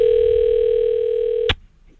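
Telephone dial tone hums steadily and evenly for about a second and a half as a call is placed, then cuts off with a brief click, leaving near silence.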